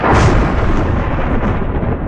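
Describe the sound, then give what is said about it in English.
Thunder booms as one loud, deep, rolling rumble that holds for about two seconds without a break. “The odds of being struck by lightning are less than 1 in 1 million. But when you hear this sound,”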